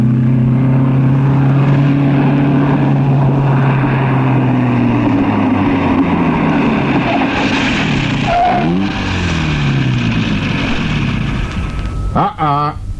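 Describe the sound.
A car engine drones steadily while driving a long road, its low hum sinking in pitch before it sputters and coughs near the end as the car runs out of petrol.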